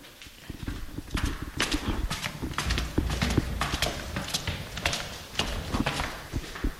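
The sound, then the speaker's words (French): Footsteps climb the stairs of a house with guest bedrooms: many hard, knocking steps in a fairly even rhythm, moderately quiet, with no talking. “Je vous propose de monter les escaliers.”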